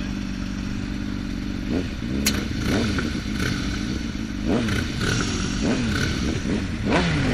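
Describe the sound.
Vehicles that had run a red light to race rumble and rev their engines. A loud, steady low drone is broken by several short revving bursts and clattering knocks.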